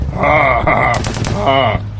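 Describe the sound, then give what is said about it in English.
Shotgun fire in a video game, dual-wielded shotguns in a multiplayer match, bursts out in a cluster of rapid blasts midway, set against loud sustained tonal sound that runs across the whole clip. “Oh, I hate it when you do that all the time with that shotgun. Oh, who said you were allowed to dual-wield shotguns?”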